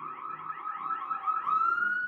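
An emergency vehicle siren sounds alone, with no voices: a fairly loud, repeated warbling wail that settles into a higher, steadier tone toward the end.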